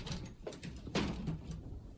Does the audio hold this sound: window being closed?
yes